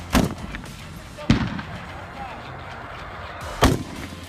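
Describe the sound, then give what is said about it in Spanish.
Three loud, sharp bangs from a machine gun fired close to soldiers, spaced irregularly over about four seconds with a low background rumble between them. “les disparan con una ametralladora muy cerca de las joyas de la familia y los pobres efectivos nomás tiemblan.”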